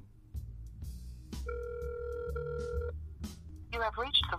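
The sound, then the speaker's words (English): A phone call placed on speakerphone: a steady electronic ringing tone holds for over a second at an even pitch, with voices talking around it before and after. “I'm gonna call him on his phone.”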